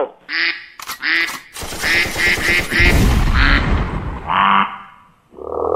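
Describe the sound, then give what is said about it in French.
Duck quacking in a few short, nasal, honking bursts, broken midway by a loud, booming blast with a deep low rumble like a gunshot, followed by more quacks. “Ça l'a fait un gros canard. On l'a tiré, le canard.”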